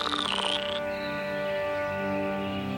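Frogs croak in a steady, continuous chorus of rapid, buzzing calls; the animals are young frogs that have just grown from tadpoles and hopped onto land.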